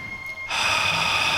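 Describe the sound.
One deep inhalation through the nose during a relaxation breathing exercise: a quiet start, then a strong airy rush that begins about halfway through and holds steady to the end.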